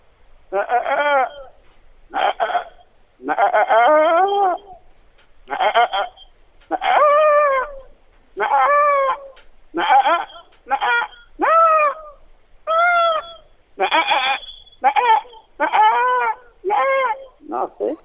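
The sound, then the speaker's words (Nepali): A person imitates a goat bleating, producing many wavering, nasal bleat calls in short bursts with brief pauses between them, loud and alone. “निकै मिठो आवाजमा बाख्रा कराइ चाहिँ गरेर कराइदिनु भयो”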